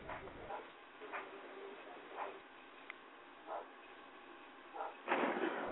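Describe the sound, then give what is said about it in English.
A dog barking in several short, separate woofs spread across a few seconds, fairly faint over a steady background hiss, with a louder, rougher burst at the very end. “So now whose dog's barking?”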